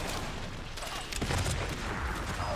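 Video game gunfire crackles in a few sharp bursts of shots over a dense, noisy background of game sound.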